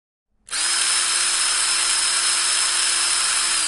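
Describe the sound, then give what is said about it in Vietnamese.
A piercing electric drill bores into ice in a quiet snowy valley, starting abruptly and holding a loud, steady high whine with an unchanging tone until the end. “Tiếng máy khoan điện chói tai đột ngột vang lên. Trong thung lũng tuyết yên tĩnh nghe rõ mồn một.”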